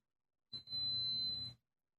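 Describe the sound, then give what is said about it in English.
A single sustained high-pitched electronic beep from an old rice heater warming rice. It lasts about a second, steady and piercing, over a low hum. “That might not stop beeping. Old. It's a rice heater. Because I'm heating rice.”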